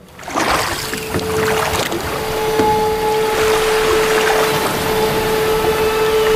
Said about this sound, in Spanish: una balandra inglesa se acercó a la costa de Asturias. El barco fondeó cerca